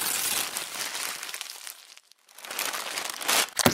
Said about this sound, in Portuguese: Deixa eu desembrulhar aqui.